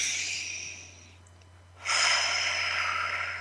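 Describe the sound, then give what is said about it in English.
A deep belly breath, an airy, breathy rush of air that tapers off, a short quiet pause, then a louder, sustained breath that holds steady to the end. “So let's take a moment to take another deep, big belly breath.”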